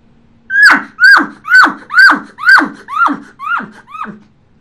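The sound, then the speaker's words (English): A person imitates a cow elk call without a tube, a steady cadence of eight short squealing notes that each dip in pitch, loud and evenly paced, with the last few growing quieter. “You cut that cow sound in half, and that cow sound, everything derives off cow sound. You cut it in half, and all I'm going to do is make a cadence out of it. Inhale, exhale.”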